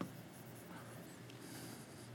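Something being written down, heard as a faint, steady scratching of a pen across paper that runs unbroken and quiet throughout.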